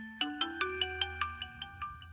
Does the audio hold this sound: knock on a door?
no